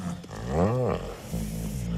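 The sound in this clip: A voice imitates the moan of a male tiger before mating. It is a drawn-out, growling roar whose pitch rises and then falls, followed by a lower, sustained rumbling sound.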